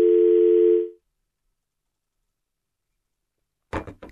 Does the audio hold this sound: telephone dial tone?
yes